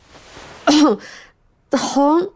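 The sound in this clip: A young man clears his throat twice before speaking: two loud, rasping, partly voiced bursts about a second apart, with a short quiet gap between them.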